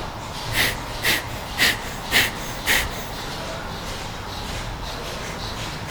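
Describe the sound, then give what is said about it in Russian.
Forceful breaths through the right nostril with the left closed during a kriya breathing warm-up: five sharp, evenly spaced nasal bursts in quick rhythm, followed by quiet breathing. “Левую ноздрю закрыли, правой дышим. То есть наш солнечный канал продуваем, активизируем.”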